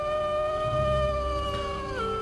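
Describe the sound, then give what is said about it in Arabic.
Wolves howl in long, sustained tonal cries that hold steady and then glide downward in pitch toward the end, with no talking. “وبدأ صوت الذئاب يكتر أكتر”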